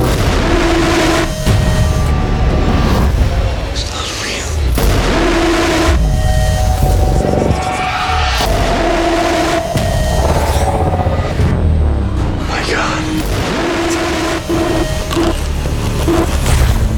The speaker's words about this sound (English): Sounds like this time they included amplified slamming door